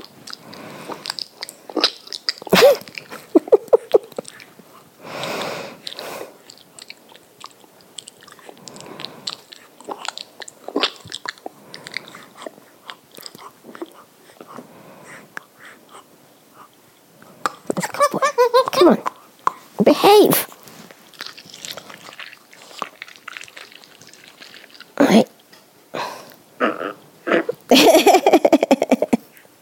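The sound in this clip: Someone chews a grape: irregular, wet, crunchy biting and mastication bursts spread over about half a minute, some loud and some soft, with a voice talking between them.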